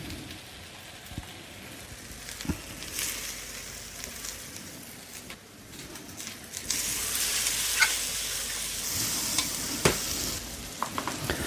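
Onions fry in a pan over lowered heat with a constant crackling sizzle, broken by scraping and clicking strokes of stirring; the sizzle grows louder and denser in the second half.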